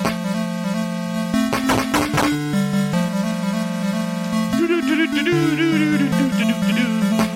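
Chiptune music from an X-Men video game on the Game Gear handheld: buzzy square-wave melody over a stepping bass line, with noisy percussive bursts, playing steadily and loudly with no talking.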